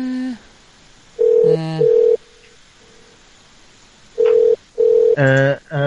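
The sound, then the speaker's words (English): A telephone rings over and over on an endless loop, giving two loud double rings separated by a quiet gap, with short voice-like sounds between the rings. “It has been ringing for a very long time. I just put you on an infinite loop”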